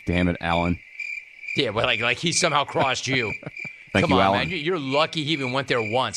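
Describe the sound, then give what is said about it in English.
A crickets-chirping sound effect gives off a steady, high, continuous chirp that runs beneath men talking over it throughout. “You know what that is? That's the sound of crickets”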